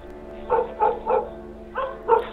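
A dog barks angrily at a person, five sharp, harsh barks in uneven bursts. The first three come close together, then a short pause before the last two. No growl stands out.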